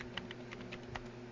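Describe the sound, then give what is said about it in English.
Keyboard typing as a report is typed up: a few light, scattered keystrokes over a steady low hum, faint and with no voices. “All right, type this up.”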